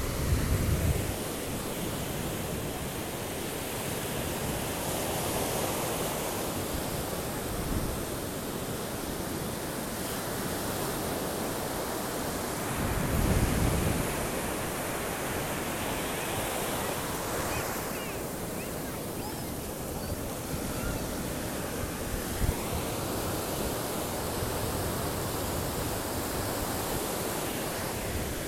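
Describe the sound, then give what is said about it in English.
Waves on a beach with a storm nearby: a continuous roar of surf with wind, holding steady throughout, with a few heavier surges rising out of the wash. “I'm thinking of you, and here's what the beach sounds like here.”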